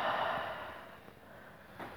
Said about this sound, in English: Now for the third round of power breath. Inhale. And exhale.